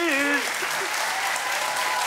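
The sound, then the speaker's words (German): Studio applause sent to a caller on a radio phone-in game: a voice is heard briefly at the start, then a thick, even wash of clapping carries on at steady loudness. “schicken wir einen ganz herzlichen Applaus zu Ihnen.”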